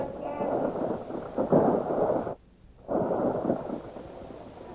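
A barrage of weapons fire against invaders in a radio drama battle scene: a sustained, roaring wall of rumbling noise that drops out briefly midway, then surges back just as heavily.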